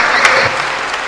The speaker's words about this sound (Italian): fate un bel applauso conclusivo, dai, prima di alzare.